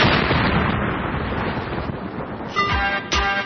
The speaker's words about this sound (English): Oh, my God. The gay bomb has gone off.